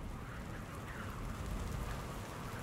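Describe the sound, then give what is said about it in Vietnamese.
Heavy night rain on a tin roof that leaks in a kitchen corner: a dense, continuous, even patter with no separate drips standing out, steady in loudness throughout. “Đêm về khuya, mưa như nặng hạt hơn, nghe rõ từng tiếng nước nhỏ tí tách chỗ cái mái tôn thủng nơi góc bếp.”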